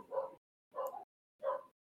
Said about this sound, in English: Apologies about the dogs. The dog got hyped.